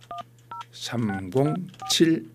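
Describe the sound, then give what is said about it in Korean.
Telephone keypad tones as a phone is dialed to call a listener: a few short, clipped electronic beeps, some alone and some under a person talking. “자, 어떤 방학생들을 하나님께서 만나게 해주실지 예 한번 전화를 한번 걸어보겠습니다.”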